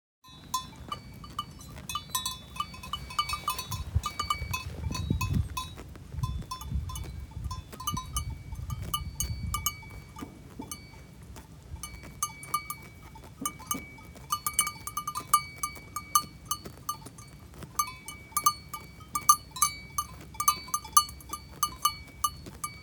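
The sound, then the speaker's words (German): Sheep grazing, tearing and chewing grass in many crisp, rapid clicks and crunches that continue in an uneven rhythm, with a soft low rumble under the first half. “Und das ist eigentlich das Geräusch und das hat mich sehr beeindruckt, wie interessant dieses Grasen klingt, weil ich eigentlich nie bewusst zugehört habe.”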